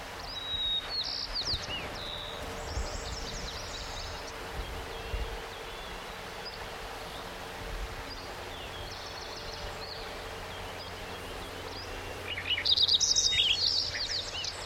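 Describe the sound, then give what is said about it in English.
A white-crowned sparrow sings brief, high whistled and buzzy phrases, once near the start and again, louder, near the end. A steady, faint background hiss fills the long quiet stretch between the songs. “Six, white crown sparrow on there.”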